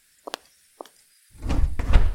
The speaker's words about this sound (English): Who made these stupid wardrobes open only with two hands?